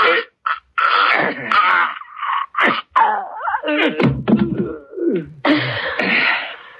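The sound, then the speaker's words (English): A man choking as his throat is squeezed: strained, rough gasps and moaning vocal sounds come in a series of loud bursts with brief pauses between them. “Another squeeze of his throat.”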